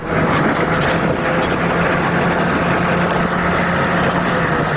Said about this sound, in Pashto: موټر په غږ پیلېږي